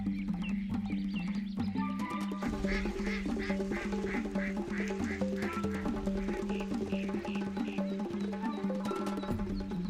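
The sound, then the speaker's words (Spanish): Many ducks quack on a wetland lagoon, dense overlapping calls running loud and steady through the whole stretch with no pause. “Los patos son las aves más representativas y abundantes de los humedales.”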